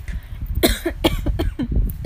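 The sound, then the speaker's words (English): A short fit of coughing, several sharp, raspy bursts in quick succession, fairly loud and with no talk around them. “of course I had a cough. At the very beginning of this, I am so sorry about that.”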